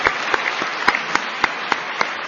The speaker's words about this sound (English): let's give everybody a big applause